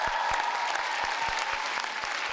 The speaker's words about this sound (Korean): 385점을 받은 박지민 양에게 다시 한번 큰 박수 부탁드립니다.